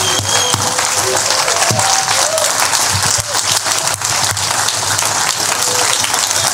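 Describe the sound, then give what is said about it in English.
Loud, dense audience applause welcomes a speaker to the platform, a continuous wash of many hands clapping at an even level throughout. “Come on, let's give it up. Come on, let's give it up.”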